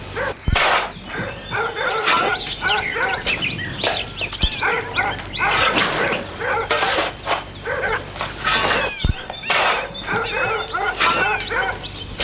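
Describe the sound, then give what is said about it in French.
Several dogs bark loudly and repeatedly during a police search where the soil is being dug up. The barks come in rapid, irregular bursts throughout, overlapping each other with no pause. “Les chiens aboient de plus belle.”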